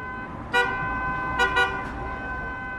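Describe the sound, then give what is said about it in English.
A taxi driver toots his car horn on busy city roads to attract waiting passengers, a few short bright honks, one alone and then a quick pair, over steady traffic noise. “hoots to attract customers”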